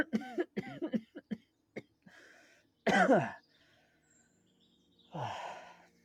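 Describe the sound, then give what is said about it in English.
Coughing and throat clearing voiced by a person acting out someone reviving: a few short, faint vocal bursts, then a louder raspy cough and, after a pause, a longer breathy, hoarse cough. “She starts to shake just a little bit, and then with a few coughs,”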